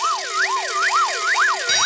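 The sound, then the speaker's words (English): Rapid warbling siren-style warning sound, two interleaved tones sweeping up and down in pitch in a fast, even cycle, loud and continuous throughout with no talk over it. “And that warning sound tells us that our fiendishly difficult Happy Hour pop puzzle will be coming your way right after the next track.”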